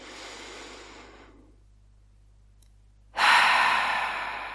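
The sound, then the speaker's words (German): A slow, deep breath during a guided relaxation, with a long, soft airy breath, a near-silent pause, then a louder, fuller breath that gradually fades, without any talking. “Atme mal mit mir tief ein und lass deine Seele in diesem Moment schon mal reinkommen.”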